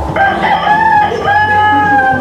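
A rooster kept on an organic farm crows loudly, a long, strained call of a few drawn-out syllables that fills about two seconds.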